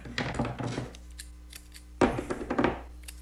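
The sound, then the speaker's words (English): Electrical tape pulled from the roll and cut to cover the terminals of 9-volt batteries, heard as two short bursts of crackly tearing and snipping separated by a quiet gap. “So I just got some simple electrical tape here. They come in all different colors, obviously.”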